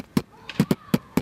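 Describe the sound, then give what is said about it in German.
A human voice imitates a kick drum (bass drum) in beatbox style: five punchy, low, thumping hits in an uneven rhythm, heard alone. “einmal mit der Kick, also auch mit der Basstrommel, mit der Bassdrum, mit der Tiefen vergleichbar. Die hört sich so an.”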